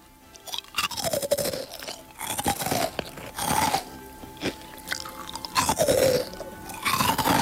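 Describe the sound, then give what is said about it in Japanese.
Someone eats a crunchy, bite-size dondon-yaki snack with sauce. Dense, rhythmic crunching and chewing continue throughout, with no talk. “一口サイズのどんどん焼きが入っております。ソースのいい香り。じゃあ早速ですね、食べていきたいと思います。音聞こえるかな。”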